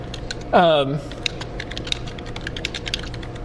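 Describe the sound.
Typing on a computer keyboard, many light, uneven key clicks running steadily after a brief voice at the start.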